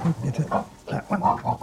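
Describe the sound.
Pigs grunting in a farm pen, where they have been biting each other: a steady run of short, low grunts and snuffles, fairly loud and closely spaced.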